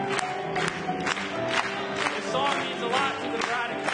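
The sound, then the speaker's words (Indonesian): A church audience applauds, with clapping mixed with cheering and shouting voices. The crowd noise is steady and fairly loud, carrying throughout with frequent sharp claps standing out. “Mari bertepuk tangan kepadanya.”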